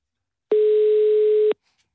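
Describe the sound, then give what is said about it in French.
A telephone ringing on an outgoing call: one steady, mid-pitched tone that lasts about a second, heard alone and followed by silence. “Ça sonne.”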